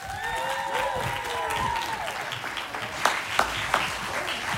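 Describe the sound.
Audience applause welcoming a guest onstage: soft, continuous clapping with a few whoops early on and some sharper individual claps standing out near the end.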